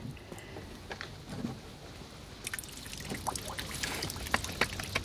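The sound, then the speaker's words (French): Water pouring from a pipe after its plug is removed, beside an artificial lake. A faint, steady splashing wash with scattered drips and gurgles grows louder and busier about halfway through. “Regardez bien. Je retire le bouchon de ce tuyau.”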